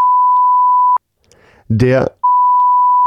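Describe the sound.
Two long, steady, high-pitched radio beep tones sound at the same pitch, separated by a brief gap in which a short burst of voice is heard.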